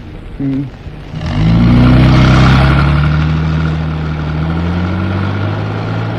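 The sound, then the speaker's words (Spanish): A car accelerating onto an asphalt road. After a brief low sound, the engine swells into a loud, sustained drone with strong low harmonics that gradually eases off slightly. “Greta Gary respira, tranquilizándose al tiempo que el árabe hunde el acelerador, proyectando el vehículo en la cinta asfáltica.”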